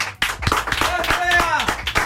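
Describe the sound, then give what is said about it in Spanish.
Applause of many quick, fairly even claps runs throughout, with voices calling out over it. “Aplauso para Bea una vez más.”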